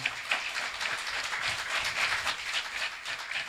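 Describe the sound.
Audience applause at a stage event honouring participants, a soft, even patter of many hands clapping that stays fairly faint and steady throughout.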